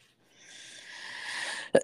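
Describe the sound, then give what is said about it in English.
A woman clears her throat: a soft, breathy rush of air builds for about a second, then ends in one short, sharp burst. “I think she cleared the throat.”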